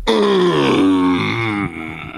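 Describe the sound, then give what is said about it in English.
A man lets out a loud, drawn-out groan of approval, a continuous voiced moan of about two seconds whose pitch wavers and sinks slightly before it trails off. “That's a groan of pride. That is approval.”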